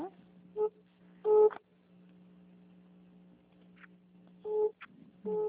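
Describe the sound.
An incoming-call tone on a phone in the middle of a call: a few short electronic beeps spaced apart over a low, steady line hum.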